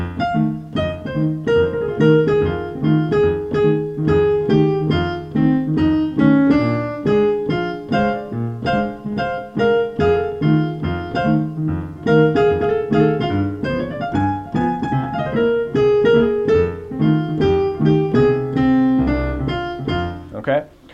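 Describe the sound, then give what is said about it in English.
A blues is played on piano in stride style using only bare-bones components: root, shells and root-to-chord. A steady bouncing left-hand pulse runs under chords and melody notes for the whole passage, loud and alone. “So if I were to play a blues in the Stride style just using these bare bones components, it would sound like this.”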